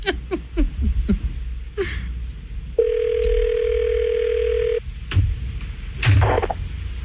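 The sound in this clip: A telephone call ringing out as one long, steady, two-second tone, with short breathy vocal sounds before it and a few more after.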